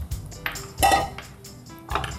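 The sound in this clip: Utensil clinking and scraping against a mixing bowl while plant-based cake batter of oil, water and dry ingredients is stirred: a few irregular metallic clinks and rubs, one louder in the middle, with no talk.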